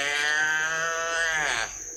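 A calf calling among cattle on a farm, one long, loud, strained bawl with a rich harmonic tone that holds steady and then dips and breaks off near the end.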